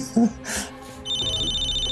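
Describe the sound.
An incoming call rings on a radio call-in phone line. A steady, high electronic ring tone starts midway and holds to the end, after a short burst of talk.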